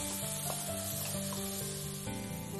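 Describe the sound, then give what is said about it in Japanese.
Dried shiitake mushrooms stir-fry in oil over medium to high heat, making a steady crackling sizzle and hiss with faint knocks of stirring underneath. The sound stays fairly quiet and even throughout, with no talk. “次に干し椎茸を炒めます。 ここでしっかり火を通します。”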